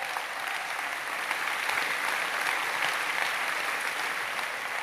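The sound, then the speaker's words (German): An audience gives sustained applause of many hands clapping in a dense, even patter that holds at a steady moderate loudness for the whole stretch, with no voices over it. “So schnell einen herzlichen Applaus für Sabi von die Malstunde.”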